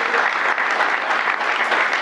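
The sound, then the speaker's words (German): Audience applause after a talk: a dense, even patter of many hands clapping that fills the whole two seconds at a steady level, with no voices over it. “Ich finde, da kann man klatschen.”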